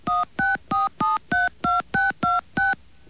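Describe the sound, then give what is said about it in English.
A touch-tone keypad dials an area code and telephone number into an automated phone system, giving a quick, evenly spaced string of ten clean dual-tone beeps. The last beep is cut short, and no one talks. “Let us make a call and see what happens. Please enter the area code and telephone number, followed by pound.”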